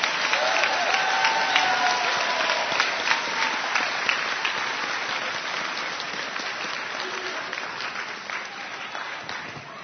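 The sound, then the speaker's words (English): Audience applause at an evening meeting, given for the night's entertainers as people find their seats: a thick wash of many hands clapping that starts full and slowly tapers over ten seconds, with faint crowd murmur beneath. “let's give an ACB round of applause to our entertainers tonight, Barbara Henning and Adele Lejeune.”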